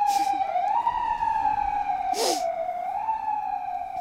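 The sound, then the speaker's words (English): City street traffic in the Inner Sunset neighborhood, heard from a garden: a constant rumble under a long, steady, slightly wavering horn-like tone, with a brief hissing burst partway through. “We are really in the city. Believe it or not, it's the sound of car radios and horns and just the flow of traffic that is a reminder that you're in the city.”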